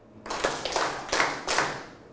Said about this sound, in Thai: เดี๋ยวจะให้ปรบมือตามขาของสัตว์เสือ